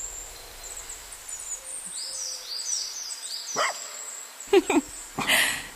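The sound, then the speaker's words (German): Dog barks a few sharp times toward the end, following a stretch of faint high bird calls, heard near a side path. “Na komm. Ruff! Na komm, Hundchen.”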